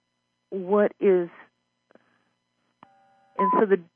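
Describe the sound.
Telephone line tones: a brief steady electronic tone, about half a second long, sounds between stretches of a person talking.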